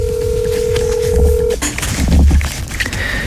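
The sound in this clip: Telephone tones sound while dialing a phone. A steady tone holds for about a second and a half, then cuts off abruptly, followed by noisy handling sounds and faint short beeps.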